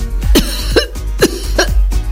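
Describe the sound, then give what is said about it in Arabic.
Four loud, harsh coughs come in an even rhythm, each a sharp, rough burst, performed by a voice playing the planet Earth as a coughing, tired character. “كوكب الأرض بدي يكح وتعب.”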